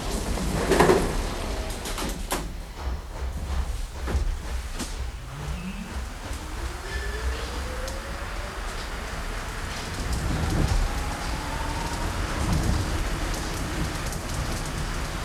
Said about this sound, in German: Zug kommt. Der Zug kommt. Schön neu, der Zug.